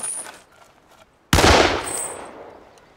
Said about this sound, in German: Sie hätten wirklich nicht schießen müssen.